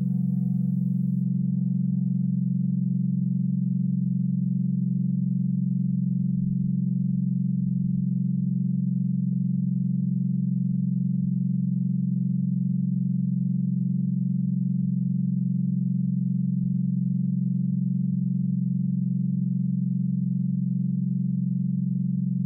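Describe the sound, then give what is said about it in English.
A sine-wave drone from a long-running sound installation in New York City holds steady low-pitched tones, unchanging and continuous, with no other sounds. “This is the sound of Dream House, a hybrid installation composition by Lamont Young and his wife Marianne Zazella, which has been in nearly continuous operation since 1962 in New York City.”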